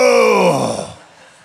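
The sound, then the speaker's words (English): Many men in a church audience groaning as they sit down, a loud, drawn-out group moan of overlapping voices that slides downward in pitch and fades within about a second. “Wow, there's a lot of groaning there. That's dads. It's every dad with his knee”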